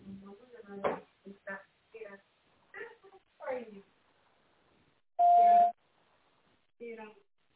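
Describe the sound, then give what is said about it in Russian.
A single steady beep from a company's automated phone answering system, sounding after a recorded voice prompt and standing out clearly before a brief burst of speech. “Наберите добавочный номер или после звукового сигнала произнесите фамилию и имя сотрудника.”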